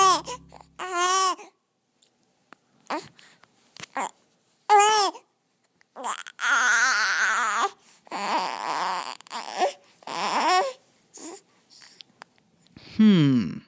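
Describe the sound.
An almost six-week-old baby girl vocalising after waking in the morning, making several bursts of coos, squeaks and fussy, cry-like wails separated by short pauses.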